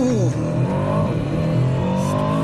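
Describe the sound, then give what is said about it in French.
Aston Martin DBX 707-horsepower engine roaring during a launch control start, a loud, continuous, harmonic-rich revving that holds steady at high intensity throughout. “je te propose qu'on fasse un petit launch control. Bon juge de paix, ouais. On va tester ça tout de suite. Allez, pied sur le frein, pied sur l'accélérateur.”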